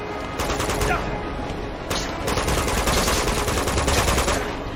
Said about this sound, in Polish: No strzelam do niego